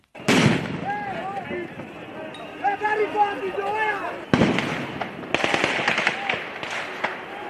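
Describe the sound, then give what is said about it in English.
Police gunfire at young street protesters in Nairobi, Kenya, during protests over tax rises: several loud, sharp cracks and many smaller pops. Shouting voices and crowd noise run throughout. “That was the sound of police firing at young people who were protesting against tax rises in a new finance bill.”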